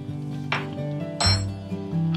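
A spoon clinks against a bowl while mashed charred corn is mixed into a creamy Thanksgiving side dish with cream cheese. A few sharp metallic taps ring out over a faint, steady background.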